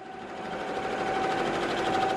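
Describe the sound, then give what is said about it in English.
Embroidery machines whir as they stitch sport crests onto jackets and T-shirts in a shop, a continuous, even mechanical hum with a fine rapid stitching rhythm and a steady pitched tone running through it. “The embroidery machines at Something Creative are busy filling orders.”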